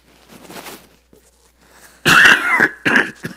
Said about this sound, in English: And I'm going to have to cough a little bit.